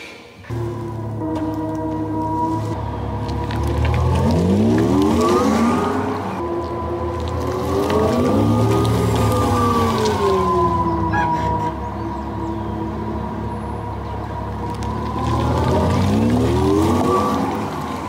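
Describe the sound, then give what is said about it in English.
Pedestrian warning sound of an Audi e-tron electric car, heard from outside: a loud, steady synthetic drone with layered harmonic tones that repeatedly sweep up and down in a spaceship-like way. “And if you're curious, this is what an Audi e-tron sounds like from the outside.”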